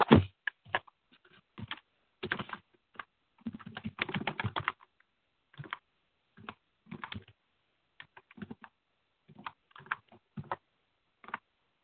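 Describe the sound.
Typing on a computer keyboard to write something down: irregular clusters of clicking keystrokes separated by short pauses, fairly quiet and alone without talk.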